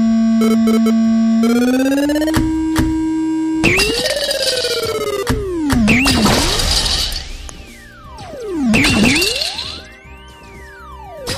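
Synthetic video-game sounds as a ball hits blocks: loud electronic tones sliding upward, then sweeping pitch arcs that rise and fall, with two noisy crash bursts and no voices.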